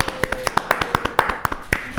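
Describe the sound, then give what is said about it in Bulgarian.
Clapping as a reward for someone finishing a task: sharp, evenly spaced claps in a quick steady rhythm, many in a row, fairly loud and distinct. “Хайде последният елемент и ще те ръкопляскаме за награда.”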